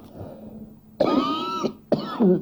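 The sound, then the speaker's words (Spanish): Two harsh coughs from a person with the flu: a longer, throaty burst, then after a short pause a second, shorter one with a throat-clearing edge, loud against a quiet background. “Disculpen, justo estoy aquí cursando un estado gripal, así que me van a disculpar las toses”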